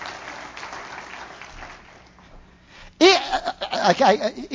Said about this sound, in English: Come on, give him a good clap on, would you?